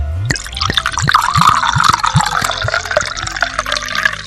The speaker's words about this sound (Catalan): Des del minibar, ell li va servir un got de Marc de Banyuls.